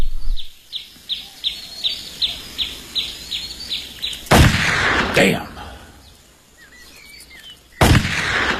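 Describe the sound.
Gunshots fired at playing cards used as targets: three loud, sharp blasts, each with a ringing tail. They come after a steady series of regular high chirps.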